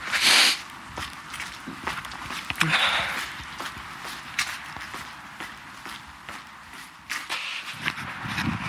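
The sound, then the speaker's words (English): Footsteps walk up toward a hospital in a steady, regular rhythm of many soft, muffled steps, with faint rustling between them. “So I'm walking up to the hospital now.”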